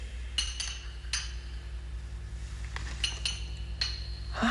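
Glass bottles clinking as someone searches a poison cabinet for a particular bottle: several sharp, bright clinks at irregular intervals over a low steady hum, with no talk.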